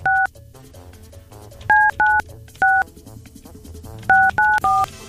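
Telephone keypad dialing: seven short electronic beeps, one alone and then two groups of three, over a low steady background hum.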